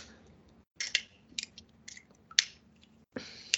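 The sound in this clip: A hard, multi-flavored candy claw, a leftover from last year, is bitten and cracked: a few sharp clicking crunches separated by short pauses, with one especially loud crack standing out.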